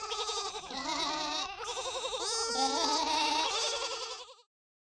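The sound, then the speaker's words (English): Lambs bleat on a farm, several overlapping high, wavering cries sounding almost continuously before stopping abruptly. “Look, lambs.”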